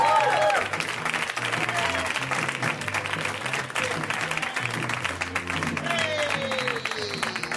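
Audience applause for a comedian walking onstage: a dense, steady wash of clapping that holds at an even level for the whole span without a break.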